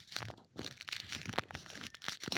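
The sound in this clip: Crinkling and crackling of a snack wrapper held right up to the microphone, a dense run of irregular crisp rustling bursts that continues throughout with brief pauses and no voices.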